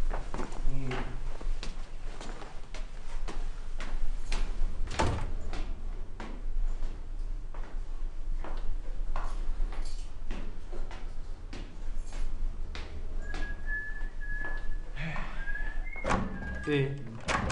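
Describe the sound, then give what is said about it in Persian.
Repeated thumps, knocks and rattles as someone tries to open a locked door, many irregular hits spread throughout, with talking in between. “ای بابا کی در قفل کرده؟ یعنی چی؟”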